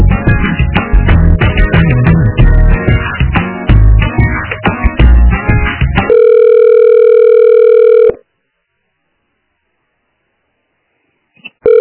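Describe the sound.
Telephone line sounds during a call transfer: dense hold music gives way to a steady, loud phone tone lasting about two seconds, then the line falls silent before a short sound returns at the end.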